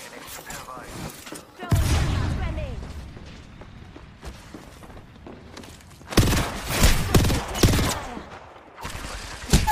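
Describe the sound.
Gunfire in the video game Apex Legends comes in loud, rapid bursts: one volley early on that tails off, then a denser run of shots through the second half.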